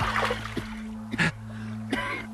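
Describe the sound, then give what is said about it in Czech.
Water splashes as someone wades across a stream, with a few short, bright sloshing bursts breaking over a steady low hum. “To zaznělo tamhle od potoka. Někdo ho přechází.”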